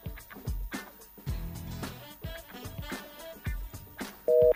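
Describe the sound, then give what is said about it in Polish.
A telephone line disconnecting on a call, heard as a brief, loud, steady two-note tone at the very end, after busy, rhythmic music-like sounds. “No niestety telefon się rozłączył.”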